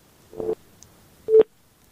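Telephone busy tone after a dropped call: two short, somewhat muffled mid-pitched tone bursts separated by a gap of quiet, fairly faint overall.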